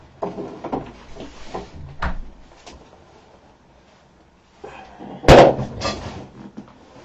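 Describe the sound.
A door is shut with one loud, sharp slam that stands out from quieter rustling and a few soft thumps before it.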